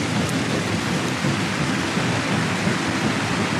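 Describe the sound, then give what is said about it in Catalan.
Applause from a stadium crowd of some 65,000 spectators at a Spanish dance and horse performance: a dense, steady roar of clapping that holds evenly throughout. “To the applause of some 65,000 spectators.”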